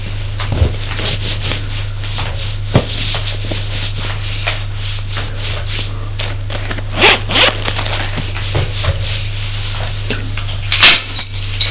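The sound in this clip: Clothing zipper being worked while someone dresses in a clean suit, a few brief zipping rasps over a steady low hum, with faint clinks between them.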